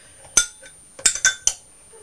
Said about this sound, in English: we've got a spoon with an extra long handle, so we can stir, can't we? Hold it. Yeah, you stir it, but you mustn't touch the pan